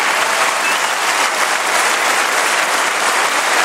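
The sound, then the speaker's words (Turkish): Thousands of citizens applaud a new prime minister's swearing-in at parliament: loud, dense, continuous clapping from a large crowd, holding an even level throughout with no pauses or speech. “Parlamentoda yemin etti, hem meclis binasında hem de parlamento dışında töreni takip eden binlerce vatandaş tarafından alkışlandı.”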